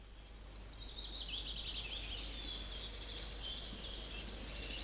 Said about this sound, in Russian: А самое маленькое гнездо у желтоголового королька. Слышите, как он поет?